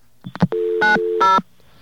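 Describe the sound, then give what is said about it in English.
Touch-tone telephone dialing: a few quick clicks, then a steady electronic tone broken by two brief, louder dual-tone beeps. “What shall we call? Let's call ourselves. Whoops. You're supposed to dial 212 first, right, in New York?”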